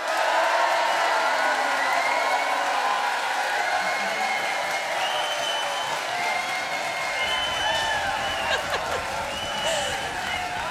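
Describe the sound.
Applause and cheering with whoops from a festival audience at Celtic Connections in Glasgow, at the CCA venue. Dense, sustained clapping stays loud throughout, with scattered shouts over it.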